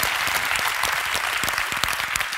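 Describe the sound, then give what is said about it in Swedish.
Audience applause, a steady wash of many hands clapping at a moderate level for the whole short stretch, with no voices over it. “Applåd för honom också.”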